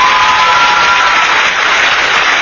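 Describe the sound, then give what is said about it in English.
Applause sound effect triggered from a button: a steady, dense wash of many hands clapping that holds at an even, loud level for the whole clip, with no voices over it. “let's give you some applause there. Let's see. Where's the applause button? Right here.”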